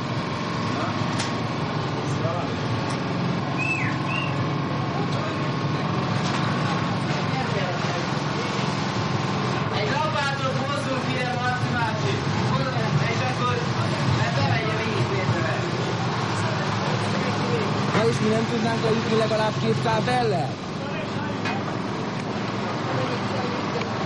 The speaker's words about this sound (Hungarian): Indul az első szivattyú.